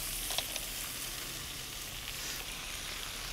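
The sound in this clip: Brown crabs sizzle in a pan with carrot and celery, a faint steady frying hiss with a few light crackles throughout.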